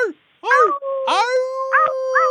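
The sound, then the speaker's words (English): Several people imitate a wolf pack howling together. Short arching howls lead into long, overlapping, sustained wails at high pitch, fairly loud and with no talk between them. “can we howl together? Because wolves have to howl in a pack, right?”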